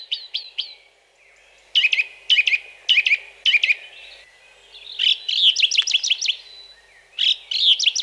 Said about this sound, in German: Die Singdrossel findet alles, was sie singt, so wichtig, dass sie es gleich mehrmals wiederholt.